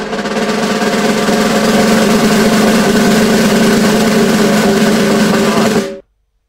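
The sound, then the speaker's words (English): A long drum roll sustains as a dense, steady rumble at constant loudness for about six seconds, then cuts off abruptly. “this is a 15-second drum roll. It's a long drum roll.”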